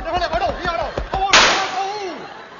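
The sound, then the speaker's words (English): A single sharp gunshot cracks loudly right after a man speaks in a comedy radio sketch, its burst decaying over about a second. “I won't. I shot him.”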